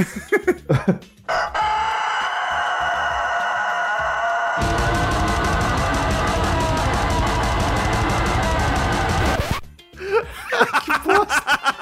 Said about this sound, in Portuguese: Ou aquele vídeo do galo cantando black metal. Já viram? Não. Põe aí.